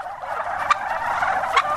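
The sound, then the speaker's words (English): Turkeys gobble on a farm where they are hatched and raised, at Dadswells Bridge west of Melbourne, giving a dense, continuous warbling chatter with two sharper, louder gobble bursts standing out. “On this farm at Dadswells Bridge, 3 hours west of Melbourne, turkeys are hatched, raised and slaughtered.”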